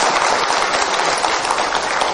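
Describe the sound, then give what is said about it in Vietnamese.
Audience applause at a live event: dense, continuous clapping from a large crowd, steady and loud for the whole stretch, with no pauses or voices standing out. “Quý vị cho một tràng pháo tay lớn hơn được không ạ?”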